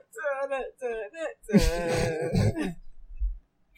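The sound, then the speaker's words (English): A man snorts several times in the middle of talking, rough nasal bursts breaking in right after his speech and fading into quiet. “Oh my God, I keep fucking snorting. That shit's annoying.”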